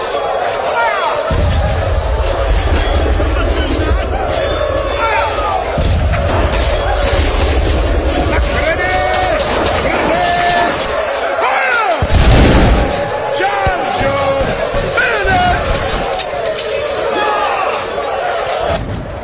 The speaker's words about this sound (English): ready your guns. Number one, fire.